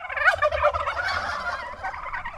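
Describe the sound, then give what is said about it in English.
Turkeys gobbling on a farm that holds a few hundred birds: a dense, continuous chorus of rapid, warbling gobbles that overlap for the whole stretch, with no talk. “Back on the farm, the place feels a bit empty, with only a few hundred birds running around.”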